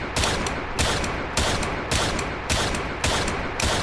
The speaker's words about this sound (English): I shoot with my non-dominant hand. That's good. I shoot with my left hand.